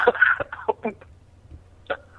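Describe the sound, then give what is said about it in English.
A man coughs on a phone call: a cluster of rough, harsh bursts at the start, a few shorter hacks after it, then one more cough after a quiet pause. “He's like coughing and laughing.”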